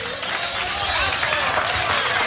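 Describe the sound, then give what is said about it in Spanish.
A church audience applauds loudly together for the Lord, giving a dense, continuous wash of clapping that holds steady throughout. “Denle el aplauso al Señor, bien grande.”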